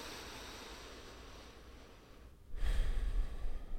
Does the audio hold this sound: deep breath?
yes